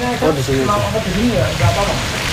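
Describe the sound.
Food frying in a pan after nearly an hour of cooking until fully done, giving a continuous dense sizzle and crackle. The sizzle runs steadily throughout under a person talking.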